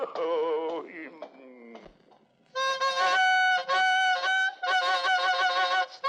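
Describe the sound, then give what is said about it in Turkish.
A bugle played loudly and badly, attempting a march: a few long, blaring, honking tones with short breaks between them. Quieter wavering tones come before them. “Yeter yeter. Borazan değil, cehennem gürültüsü bu. Ölüleri bile mezarlarından kaldırabilir. Sustur şunu.”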